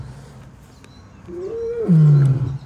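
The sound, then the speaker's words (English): Lions roaring: a low, groaning call swells into a louder, deep rumbling roar toward the end, with no talk over it. “apologize for the noise behind me. Those are the lions making noise today.”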